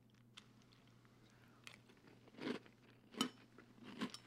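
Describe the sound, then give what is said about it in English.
Soft chewing and crunching as someone eats a Neapolitan-flavoured food: faint mouth sounds with three louder bites near the end over a low steady hum. “So it took 33 shows, but we're just listening to you eat now. Definite Neapolitan taste. Chocolate's not that strong.”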